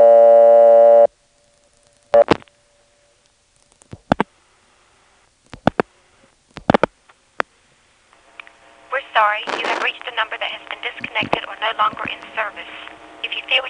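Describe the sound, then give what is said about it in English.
Telephone dialing of 8 plus 411 on a phone line: a steady dial tone cuts off, a few sharp dialing bursts and clicks follow in an uneven rhythm, then a long stretch of dense, warbling line tones and noise. “Let's try dialing just 8 plus 411 and see what happens.”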